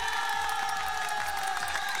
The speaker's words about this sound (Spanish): Sí, sí, aplaudan, aplaudan, por favor, claro, aplaudan, claro.